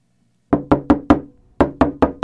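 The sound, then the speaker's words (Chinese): Urgent knocking on a door: two quick bursts of four sharp, loud raps each, evenly spaced, separated by a brief pause, with nothing else heard. “又有人急急地敲门”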